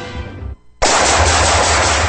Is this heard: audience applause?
no